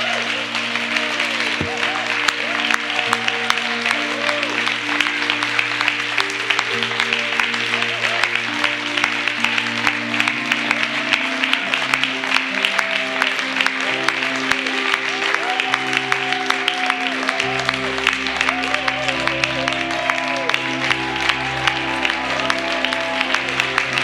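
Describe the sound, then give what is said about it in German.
Applause at a charismatic church healing service: dense, sustained clapping from an audience that continues for about 24 seconds over steady held musical tones. “Lass uns mal Gott einen richtigen Applaus geben.”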